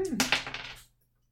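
Dice roll on a table during a tabletop game, a quick, faint clatter of small clicks that thins out and stops within about a second.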